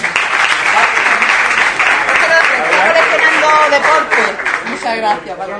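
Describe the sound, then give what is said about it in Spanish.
Applause from the audience at a local municipal ceremony honouring the town's mayor, steady clapping throughout with a voice speaking over it toward the end. “Un aplauso para...”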